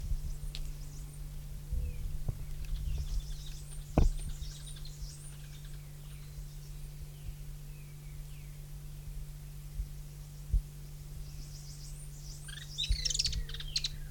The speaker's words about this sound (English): several birds